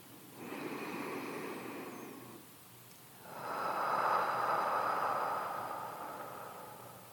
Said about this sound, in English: starting with three deep breaths, in through the nose and out through the mouth.